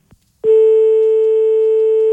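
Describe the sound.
Telephone line tone after a call was cut off: one loud, steady, unbroken tone that begins after a soft click and holds to the end.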